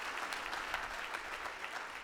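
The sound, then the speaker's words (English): Church audience clapping together in a steady, dense patter of many hands, fairly faint and even throughout, with no talk over it. “Now you can clap.”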